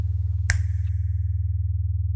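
One sharp, crisp finger snap stands out against a steady, low, softly pulsing drone that continues throughout.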